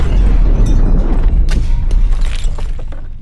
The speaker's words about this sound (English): It exploded! It wasn't supposed to do that!